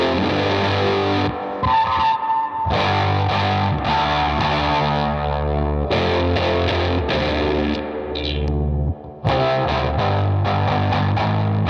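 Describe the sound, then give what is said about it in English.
Overdriven tone from an East German Vermona Regent amplifier, thick sustained chords with buzzy, saturated harmonics, played in several phrases separated by short breaks, with a brief dropout near the end. “if you were at a gig, that's the amp that would be there, the Vermona Regent. Kind of like going on Broadway, you got the PVs. The PVs like a standard. Yeah, it's like the PV, yeah, maybe of like the Eastern Bloc, and it sounds like.”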